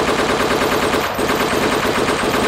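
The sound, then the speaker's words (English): Suppressive gunfire in a video game: a dense, loud, continuous rattle of rapid automatic fire that runs unbroken throughout. “It's okay, caller. I got you. I'll lay down suppressive fire.”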